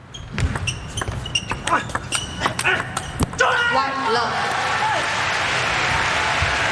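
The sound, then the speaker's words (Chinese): Table tennis ball strikes as Tomokazu Harimoto serves to open a match: many sharp, bright taps in an irregular rhythm, followed by a swell of steady crowd noise and applause. “比赛是由张本智和来率先发球。”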